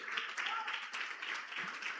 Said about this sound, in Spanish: ¿Quién sabe qué se está celebrando en este mes? El mes de la Biblia. Eso es un aplauso.